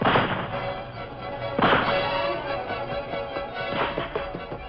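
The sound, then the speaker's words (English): Rifle gunfire in an outlaw shootout among rocks and boulders on a steep slope: a few loud, booming shots with rough, rumbling tails, spaced apart over a dull background, with no voices. “Take your rifle and keep firing at him. Make him take cover.”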